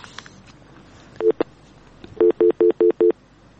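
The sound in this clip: Telephone tones as a call to a radio phone-in connects: a brief early beep, then a quick row of five evenly spaced, clear electronic tones at a steady pitch.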